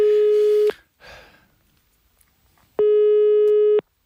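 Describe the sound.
A telephone call tone: two steady, mid-pitched beeps, each about a second long, separated by a gap of roughly two seconds that holds a brief faint noise.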